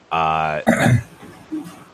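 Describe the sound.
Someone clearing their throat, a loud voiced hum breaking into a rough, gravelly rasp, followed by a fainter short grunt, with no talk around it.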